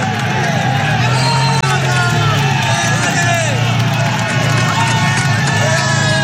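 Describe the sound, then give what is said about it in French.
Tens of thousands of spectators cheer Tour de France riders on the 21-hairpin Alpe d'Huez climb. A continuous, loud crowd roar carries shouting voices without pause. “Richard, ça te file le frisson d'entendre ça, la foule qui encourage les coureurs dans ce stade incroyable de 21 virages de l'Alpe d'Huez.”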